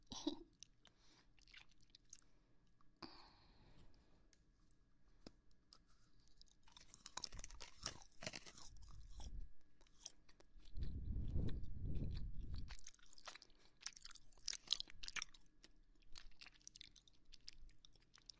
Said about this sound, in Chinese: 跟你一起吃巧克力，特别的幸福。